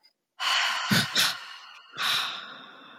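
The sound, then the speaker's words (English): A deliberate breathing exercise of a double inhale and double exhale through nose and mouth: a long drawn breath with two sharper bursts, then, after a short pause, a strong breathy exhale, fairly loud with no speech. “you just take a double inhale and tense all the muscles in your body, and then double exhale out through the nose and mouth and release everything.”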